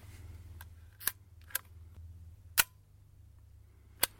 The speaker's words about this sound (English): Camera number five. There we go. Shutter sound number 1, 2, 3, 4, 5, 6.